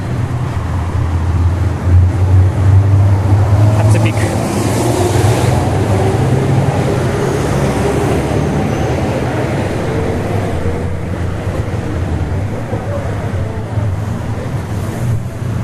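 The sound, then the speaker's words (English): Wind blowing into a microphone outdoors, a loud, steady low roar with gusty buffeting thumps that continues throughout. “Gonna have to be a little creative with the editing with this wind here.”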